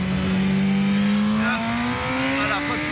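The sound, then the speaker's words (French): An official racing motorcycle's engine screams around the 24 Hours of Le Mans circuit, a loud, steady high whine whose pitch climbs gradually as it accelerates. “c'est pas un kiff énorme ça, de rouler sur une moto officielle, sur le circuit des 24 heures du Mans.”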